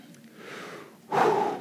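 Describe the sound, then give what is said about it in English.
Deep breathing from people told to stand up and take a breath: a soft, drawn-out airy breath followed by a sudden louder, rushing breath near the end, with no talk over it. “Take a breath and take another breath.”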